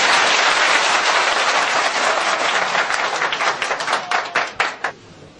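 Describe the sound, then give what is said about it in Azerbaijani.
Loud audience applause follows a line of Azerbaijani-language verse recitation: a dense wash of many clapping hands that thins into scattered, distinct claps and then stops near the end. “mən Türk balasıyam var, öz sağlığına bir əl çalsın”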